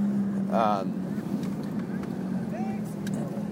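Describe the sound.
Steady low drone of a Ferrari engine while the car is being driven, a continuous hum with light wind rush and a brief voice-like sound early on.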